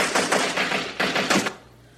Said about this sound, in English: Do you want me to stop shooting you?